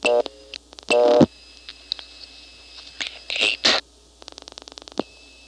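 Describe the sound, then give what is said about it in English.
Telephone number 2280 is dialed on an old phone exchange: loud bursts of tone alternate with silences, then a rapid train of sharp dialing clicks follows near the end. “I'm getting it by dialing 2280. Strictly speaking, I should dial 8280, but from here it doesn't make any difference.”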